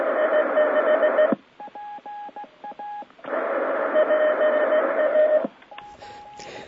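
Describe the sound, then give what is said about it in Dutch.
Earth-moon-earth amateur radio signals switching between transmit and receive: loud stretches of band-limited hiss alternate with quieter passages of thin, keyed tone beeps, with no voices. “Van die EME-signalen kan ik je overigens ook wel wat laten horen. Dus zenden, ontvangen. Zenden, ontvangen.”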